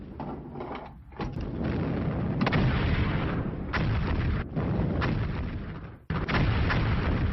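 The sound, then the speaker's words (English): German artillery fire during the full assault on Warsaw: a loud, dense, continuous barrage of rumbling blasts that runs almost without pause, broken by a few brief dips, with no voices. “after several rounds of fire from German artillery, the full assault on the city commences.”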